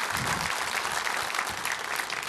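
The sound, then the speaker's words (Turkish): An audience applauds with dense, continuous clapping from many hands, fairly quiet and steady throughout, with no speech over it. “Alkışlar”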